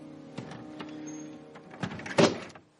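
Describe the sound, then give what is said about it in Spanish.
Wooden shutters are swung shut and latched from inside, giving a few faint wooden knocks and rattles, then a firmer clack near the end, all over a low steady hum. “Él cierra las contraventanas de madera y Delfín les echa el pestillo por dentro.”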